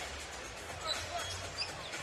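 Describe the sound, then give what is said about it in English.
Basketball dribbled by a player during an NBA Warriors–Timberwolves game: a few bouncing thumps over a steady murmur of arena crowd noise. “And Jones again to walk it up. Jones to the far side with the dribble.”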